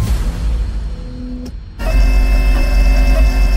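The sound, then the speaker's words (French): A printer sound effect standing in for a 3D printer printing a steak: a mechanical whirring hum, a brief break partway through, then a louder, steady grinding whir that continues to the end. “Si on peut pas faire croître un steak dans un vase à pétri, on peut peut-être l'imprimer.”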